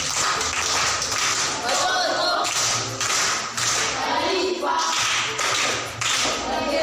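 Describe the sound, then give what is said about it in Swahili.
Primary-school pupils clap for a classmate in a classroom: a patterned round of hand claps, with bursts repeating in a regular rhythm alongside voices throughout. “Makofi kwa Daudi.”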